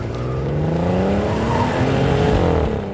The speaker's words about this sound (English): I can't use a car. Well, my thing's got about 500 horsepower.